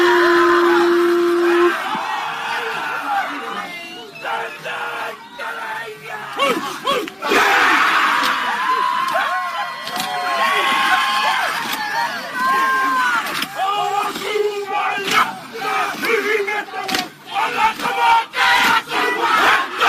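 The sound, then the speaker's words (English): Maori men perform a war dance at a protest against mandates, many voices shouting and chanting in loud rhythmic bursts with sharp cries over constant crowd noise. “Maori native perform war dance to end mandate. They're already calling war dance, homeboy.”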